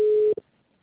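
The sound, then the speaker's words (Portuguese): A voicemail recording beep: one steady mid-pitched tone lasting about a third of a second, followed by a brief faint blip and then silence. “Grave a sua mensagem após o sinal.”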